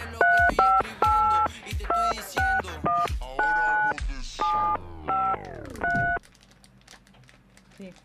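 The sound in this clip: Telephone keypad dialing tones: many crisp, evenly loud beeps in a quick, uneven sequence over a low background, then a fainter quiet stretch to the end.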